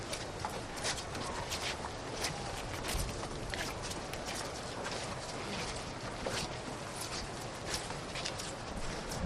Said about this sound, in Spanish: Este rachear, que también pisa la cera roja de los nazarenos de Santa Cruz